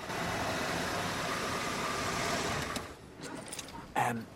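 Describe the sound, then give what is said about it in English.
A car engine idles as the car pulls up and stops outside a caravan at night: a steady, even hum for nearly three seconds, which then drops away into a few faint clicks and one short bump. “It's dark, and Chris drives Bev home. He stops outside her caravan and turns to her.”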